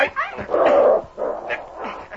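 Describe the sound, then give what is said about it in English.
A dog whimpers and yips while being grabbed and held down to be tied up, giving several short, high whines and yelps in quick succession. “Nice dog. Here's some meat.”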